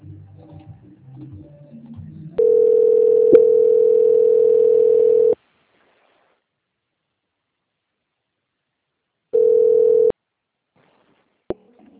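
Steady telephone line tone while a bank call is transferred on hold: two flat mid-pitched tones, about three seconds and then under a second, separated by silence. A single sharp click follows near the end.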